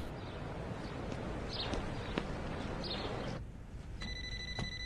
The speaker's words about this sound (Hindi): बीबी जी कह रही हैं आपका मोबाइल बज रहा है, आइए फोन उठा लीजिए।